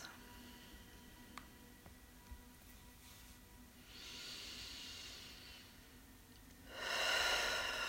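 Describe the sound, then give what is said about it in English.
Slow, deep breaths drawn in and out through the nose during a guided breathing exercise: two long, soft, airy swells of hiss, the second louder, over a faint quiet background. “So take a few breaths.”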